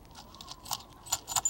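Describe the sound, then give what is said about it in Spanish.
Metallic jingling of a small bag of coins being shaken by hand, heard as a few short, bright clinking bursts, fairly faint and alone, with no talk. “Agita un saquito con monedas.”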